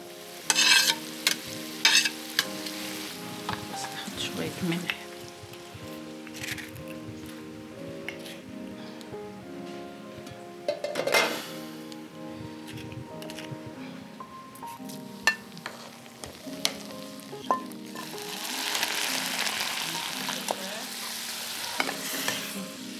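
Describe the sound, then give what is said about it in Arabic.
Onion and garlic frying in oil and ghee with spices for a Druze home dish: a steady sizzle with repeated stirring and clinks of a utensil against the pan, the hiss growing louder near the end. “رح جرب أوصف لكم المشهد. تيتا عملت القلية يلي هي بصل وثوم مقليين على النار بزيت وسمنة مع بهارات”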